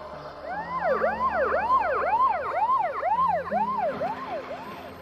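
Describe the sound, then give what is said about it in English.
An ambulance siren wails as the ambulance leaves a house, its loud rising-and-falling pitch cycling about twice a second without a break, with no voices over it. “the ambulance leaves Glenn's house”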